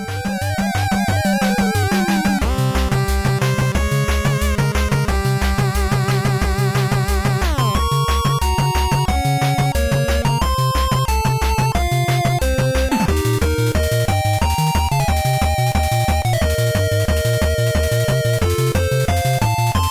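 A fan arrangement of video game battle music plays loud and continuous. A fast, driving beat and pulsing bass sit under bright synth melodies, and the arrangement shifts sections a couple of times.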